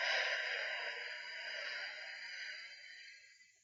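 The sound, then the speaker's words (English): A deep breath taken during a seated breathing exercise, a soft, airy rush of air that holds briefly and then fades away toward the end. “Let's just take a deep breath in and then out.”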